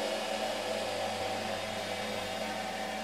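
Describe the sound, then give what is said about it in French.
Steady mechanical drone of a running yarn twisting machine that assembles single yarns into two-ply thread. A continuous, even whir holds at the same loudness throughout, with no voices. “Et donc là, on est devant la retordeuse, donc la machine qui assemble les solitaires.”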